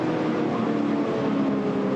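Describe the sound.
A racing boat's engine exhaust roars as the boat runs down the course. The loud, smooth, throaty drone holds steady from start to finish with no pauses.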